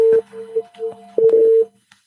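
Electronic telephone line tones as an incoming phone call is picked up: a steady mid-pitched hum-like tone, loud at first, then a few weaker pulses, then a second loud sustained stretch before it cuts off into near silence.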